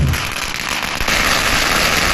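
Strings of firecrackers set off by villagers to welcome a Lunar New Year dragon dance troupe crackle in a rapid, dense, unbroken barrage of sharp pops, loud throughout.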